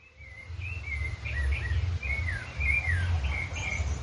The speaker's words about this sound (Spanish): Estamos escuchando un contrapunto de distintos pájaros.